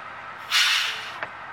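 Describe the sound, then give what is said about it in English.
A bus's air brake hisses in one loud, broad burst that gradually fades, followed by a brief, fainter second puff of air. “Let's get on this bus here.”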